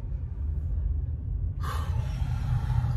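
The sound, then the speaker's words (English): Inside an automatic car wash, a deep steady rumble runs throughout, and partway through a bright rushing hiss of spray suddenly joins and continues to the end. “This is like an ultra deluxe supreme car wash.”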